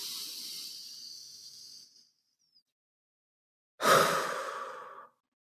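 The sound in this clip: Deep breath during a calming, grounding exercise: a long, soft, airy inhale lasting about two seconds, a brief silence, then a shorter and stronger hissing exhale.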